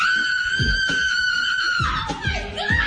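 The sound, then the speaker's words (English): A woman screams loudly in excitement about meeting a famous model. The scream is a piercing, sustained high-pitched cry that drops in pitch near the end, over a busy, noisy background. “Why are you screaming so loud?”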